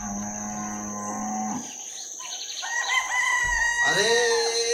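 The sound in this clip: Cows mooing at early-morning milking time on a farm: long, low, droning moos, followed by a rooster crowing with a bright, rising call. No one talks.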